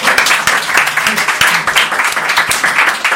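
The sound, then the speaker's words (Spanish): Audience applause for a guest in a Spanish comedy show: dense clapping throughout, with sharper individual claps standing out in an uneven rhythm. “Un saludo a Pilar, por favor, un aplauso. ¡Aplauso!”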